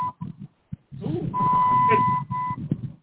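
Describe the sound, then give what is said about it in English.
A mobile phone beeps with a steady, level electronic tone under conversation. One long tone of about a second is followed by a short second tone while people keep talking. “I don't know if that's my phone or your phone.”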